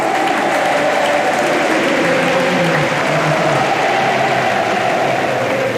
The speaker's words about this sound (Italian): Sentite il pubblico, sentite il pubblico che invoca il suo nome. Stringe la coppa Yannick Sinner.